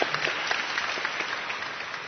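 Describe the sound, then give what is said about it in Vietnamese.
An audience at Mass applauding, a steady, even roar of many hands clapping together at a moderate level from start to finish. “Vậy cộng đoàn chúng ta cảm ơn các em thiếu nhi bằng một tràng pháo tay.”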